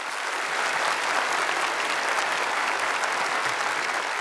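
An audience applauds to welcome a musician, with dense, steady clapping that holds at an even, loud level throughout.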